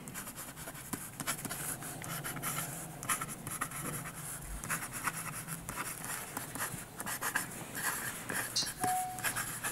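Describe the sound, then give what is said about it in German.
A pen scratches steadily across a watch's warranty card as it is filled in by hand, with many small, continuous writing strokes and scrapes. “macht noch die Garantiekarte fertig. Auch die, wen wundert's, wird von Hand geschrieben.”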